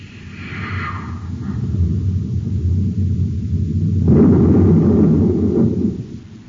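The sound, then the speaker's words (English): A deep rumbling explosion as a space torpedo strikes and levels a mountain peak. A sustained low roar swells into a louder, rougher burst partway through, then fades. “He destroyed the missile. Smoke and rockets. The entire peak is gone. Leveled flat.”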